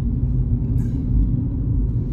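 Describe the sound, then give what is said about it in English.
Low, steady engine rumble from a Kia Stinger car driving past, loud and continuous with a deep droning tone and no voices. “That's one of those Kia Stingers, man. Those are good cars. I think it's called a Stinger, right? One of them Kia Stingers, man.”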